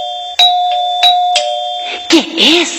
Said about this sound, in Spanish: ¿Qué es? El timbre alguien tocó.